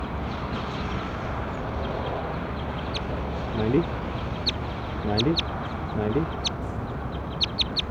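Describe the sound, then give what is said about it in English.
Bird calls heard as a few short, nasal, quack-like notes rising out of steady background noise, with sharp high ticks scattered throughout. “stop, start recording bird”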